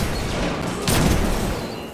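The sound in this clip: A gunshot in the video game Destiny 2: one sharp, loud burst about halfway through, over a steady rush of noisy background sound.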